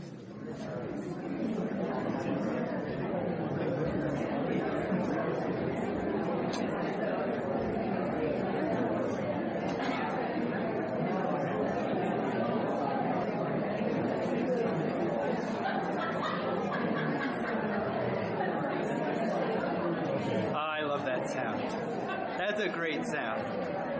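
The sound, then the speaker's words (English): Congregation members chat with their neighbours in a dense, steady babble of many overlapping voices that holds at an even level throughout. “And I want you to turn to your neighbor and share with them something you plan to do to take care of yourself and your people for the next couple of days.”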